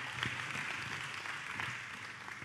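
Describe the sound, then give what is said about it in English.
Audience applause as guests come up onto a stage at a morning gathering: a fairly faint, even wash of many clapping hands that continues throughout. “Can we give them a big round of applause again as they come?”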